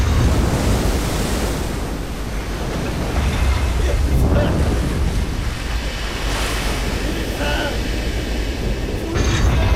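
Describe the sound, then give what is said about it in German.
Huge water whirlpools crash over a ship's deck with a loud, continuous roaring wash of surging water, steady throughout. “Mit einem Mal erlosch das elektrische Leuchten und zwei gewaltige Wasserstrudel entluden sich über unser Deck.”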